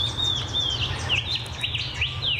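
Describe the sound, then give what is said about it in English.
A shining bronze cuckoo calls in a series of short, high whistled notes, some slurring upward and others dropping, repeated at an uneven pace over a faint hiss. “Yeah, I think that might be a shining bronze cuckoo. Ah. Because they got lots of different calls. It was that. That's it.”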